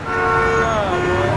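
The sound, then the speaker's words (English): A car horn honks in one long, steady blast on a busy Nashville city street, loud over a constant wash of traffic noise for the whole moment. “Do you hear that? That's the sound of a city that's back in business.”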